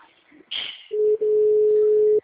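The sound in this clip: A telephone rings with a steady, single-pitched electronic tone that holds for over a second, broken by one brief gap partway through.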